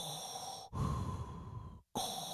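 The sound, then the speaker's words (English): A voice imitates a masked villain's mechanical respirator, a quiet, hissing, rasping breath of about a second, cut off by a brief silence before another breath begins. “whenever there's a scene with Vader, there's just this tension in the air. He doesn't even have to be speaking, but it's because that breath is going on.”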